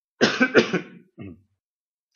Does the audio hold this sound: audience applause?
no